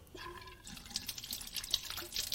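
Water running from a tap as someone washes their face: a faint, steady trickle with light splashes and small drips, quiet throughout.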